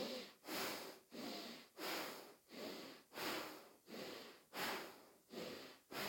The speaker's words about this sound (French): continuez encore quelques respirations avec Bastrika.